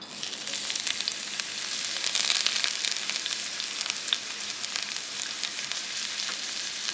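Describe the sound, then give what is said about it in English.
Chopped onions sizzle in hot olive oil inside a big red Dutch oven, a steady, dense crackling hiss with small pops, alone and without talk. “poured some olive oil into her big red Dutch oven. Sounds lit. There we go. And dropped the chopped onions into the hot olive oil.”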